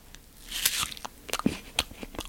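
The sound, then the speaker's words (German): Crisp crunching bites into a crunchy apple: several sharp, bright cracks and crunches in quick succession, moderately loud against a quiet background. “ich mache jetzt ein Geräusch und ihr dürft raten, was das für ein Apfelknacken ist.”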